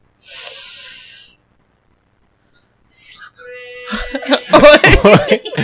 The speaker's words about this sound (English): You can't see, but she just inhaled a fly and is choking.